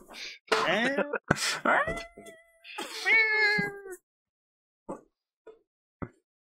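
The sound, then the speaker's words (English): A cat screams in long, drawn-out, wavering wails that hold a high, strained tone, followed by a few short, sharp knocks after the cries stop. “It's a scream of a cat knowing what's coming for it.”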